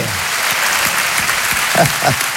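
An audience gives an ovation at the Festival d'Avignon, a dense and steady wash of applause that holds an even, full loudness from start to finish.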